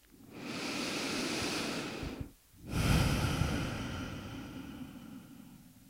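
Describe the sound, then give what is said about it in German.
Deep breathing in and out during a guided meditation: a long, loud breathy inhale, a brief pause, then a fuller exhale with a soft rushing, airy texture, heard alone with no talk. “Atme tiefer ein und nochmal aus.”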